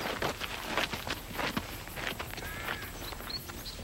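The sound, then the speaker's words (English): Footsteps of three teenagers walking nervously into a wooden barn: a quiet series of soft, uneven steps and light scuffs, heard alone. “all three walk past Jackie and enter the barn nervously.”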